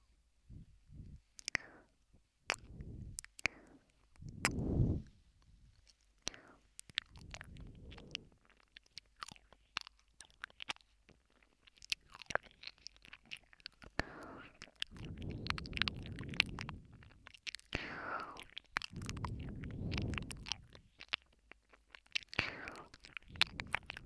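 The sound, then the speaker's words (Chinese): Soft, wet ASMR ear-licking mouth sounds: quiet clicks, smacks and slurps scattered irregularly, with a few longer, breathier swells of mouth noise in between. “要不要试试被舔耳朵呢？”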